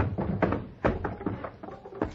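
Boxes are opened on a stagecoach during a Wild West radio drama holdup, heard as a quick series of hollow wooden knocks and clunks, fairly loud and irregular.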